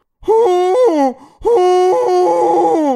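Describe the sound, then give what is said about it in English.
A voice imitates a llama being chased by a wolf: two long, strained, wailing cries separated by a brief gap, the second longer and wavering in pitch toward its end. “the noise that a llama would make if being chased by a wolf.”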